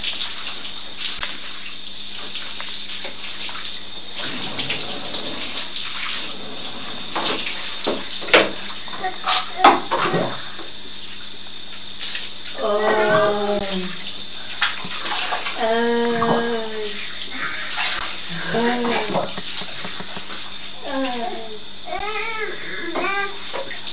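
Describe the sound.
Water pours over a child's head during a bath, a continuous rushing and splashing flow that runs throughout while people talk over it.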